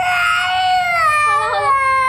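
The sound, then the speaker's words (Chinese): A baby crying: one loud, sustained high wail with a strong tonal edge runs for about two seconds, its pitch wavering and breaking toward the end. “宝贝，不哭不哭。”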